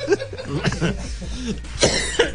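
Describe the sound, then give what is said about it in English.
Coughing and choking from a man, as if something is caught in his throat: a few harsh, rasping bursts mixed with strained voiced sounds and gasps, fairly loud throughout. “You're choking on a croissant?”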